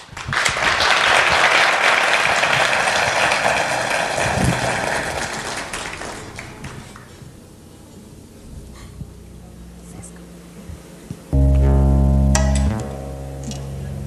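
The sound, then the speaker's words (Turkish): Audience applause at a televised stage show: dense, loud clapping for about six seconds that thins and fades into a quieter stretch, then a brief loud low tone near the end. “Bir alkışlar mıyız?”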